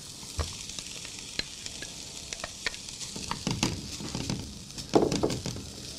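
Mushrooms frying uncovered in a pan give a faint, steady sizzle broken by scattered sharp crackles and the clatter of stirring, louder near the end.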